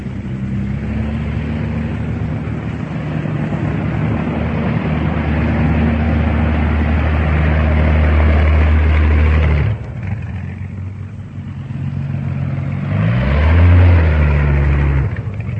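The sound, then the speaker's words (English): Aircraft engines as the machines move up one after another for takeoff: a loud, steady, low droning rumble. It dips briefly near the end, then swells again with a rising engine tone, and no voices are heard. “One after the other, the machines move up to the takeoff in order.”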